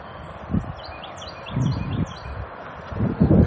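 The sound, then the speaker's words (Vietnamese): Faint, high bird chirps repeat through a large garden after rain, sitting above low, gusty bursts of rustling or wind that swell several times. “nghe tiếng chim kêu không? Vườn tôi rộng tiếng chim kêu.”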